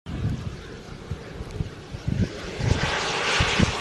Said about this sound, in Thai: It's the world's first demonstration of a fully controllable aircraft with no moving parts